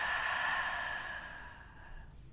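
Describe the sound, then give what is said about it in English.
A slow, deep breath taken during a guided relaxation exercise: a soft, airy hiss that holds steady and then gradually fades. “take a nice deep breath in and out.”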